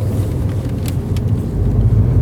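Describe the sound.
Car driving, heard from inside the cabin on a drive home: a steady, loud, low engine and road rumble that stays even throughout, with no talking.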